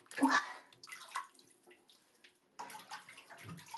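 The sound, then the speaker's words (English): Water from a shower splashing in uneven surges separated by brief quiet gaps, fairly faint, with a soft voice faintly in the background. “give me a little moment, my sweet darlings, while I get ready to turn it on, the shower”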